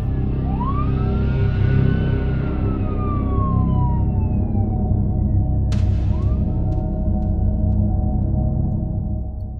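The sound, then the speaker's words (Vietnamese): A police siren wails in a slow sweep, climbing in pitch, gliding back down and then starting to climb again, all over a steady low rumble of traffic-like noise. “cho tới khi tiếng còi hú vang của cảnh sát làm mờ đi mọi thứ.”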